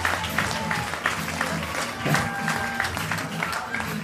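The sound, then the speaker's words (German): Applause for a performer, a full, continuous patter of many clapping hands at steady volume, with voices mixed in beneath it. “Also, Michael, das ist nochmal ein Applaus für dich, ehrenwerterweise.”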